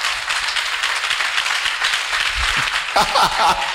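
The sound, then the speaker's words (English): An audience claps in praise of God during a church service, a busy, continuous patter of hands with voices rising over it in the later part. “hey are you clapping for my God”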